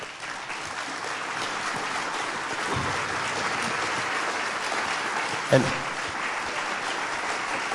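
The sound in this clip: A standing audience applauds to welcome a guest, with steady, dense clapping throughout and voices over the applause.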